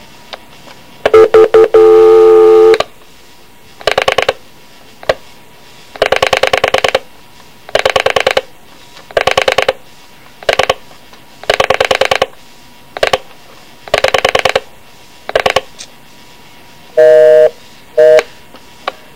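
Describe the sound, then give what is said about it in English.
Touch-tone telephone dialing: a long series of loud, evenly spaced keypad beeps as a number is entered, each tone short and steady, with no talk over them. “All right, yes, sir. I'll dial the number.”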